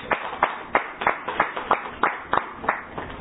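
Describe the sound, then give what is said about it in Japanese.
Celebratory birthday applause rings out as a steady run of sharp, evenly spaced claps, about nine in a regular rhythm, bright and crisp with no voices over them. “ネットを通じてこの拍手が届くと思います。”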